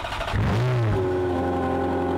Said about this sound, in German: Ein Ferrari 403 Scuderia limitierter Auflage.